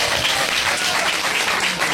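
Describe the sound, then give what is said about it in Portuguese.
A church audience applauds Jesus during a healing service. The clapping is thick and continuous, a steady wash of many hands that stays level for about two seconds. “Quem pode aplaudir Jesus?”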